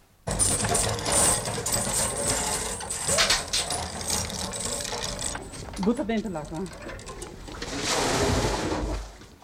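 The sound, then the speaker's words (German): A metal chain rattles and clanks as a bucket of water is drawn up a brick-walled draw well with a small roof over the chain beam in an Italian village, in uneven bursts of mechanical clatter that swell again near the end. “ein junges Mädchen muss, weil wir wissen wollen, wie das Wasser schmeckt, einmal mit der Kette und dem Eimer Wasser heraufholen.”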